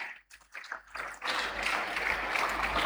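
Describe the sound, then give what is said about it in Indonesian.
Audience applause for an honoured woman at a formal gathering swells in after about a second of scattered taps, then continues as a dense, steady clapping. “Sekali lagi kita beri aplaus untuk Ibu Dani.”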